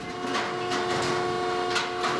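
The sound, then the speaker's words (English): A baling machine at a recycling center crushes scrap metal into compact bales of about 500 pounds, producing a continuous dense mechanical grinding roar with a steady tonal hum and faint rhythmic surges. “Then a crew inside the center was crushing the metal into compact bales that weighed about 500 pounds. Jesse Morgan was manning the crushing bale machine.”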